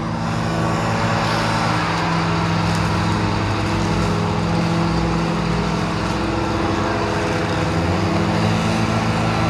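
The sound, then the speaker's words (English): Riding lawn mower with a box on the back, doing yard maintenance: a steady, loud engine drone with a low humming tone that runs evenly and continuously throughout. “There's one guy in a riding mower with a box on the back.”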